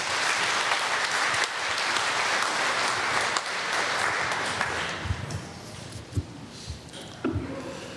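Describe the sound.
An audience applauds to welcome a speaker at a church gathering. Dense clapping holds steady for about five seconds, then thins into scattered, separate claps.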